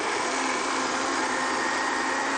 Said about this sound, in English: We'll start with around about perhaps 1/2 cup of water, but every batch is different, so we'll just blend it and see what happens.